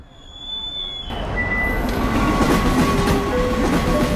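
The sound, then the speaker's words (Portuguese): A train arrives at the busy Termini station in Rome on a weekend. A loud, steady rumble of wheels on rails builds slightly and carries rolling clatter and thin, high ringing tones throughout. “Carvalhão Gil entra na agitada estação de Termini. É fim de semana. Há centenas de pessoas por ali.”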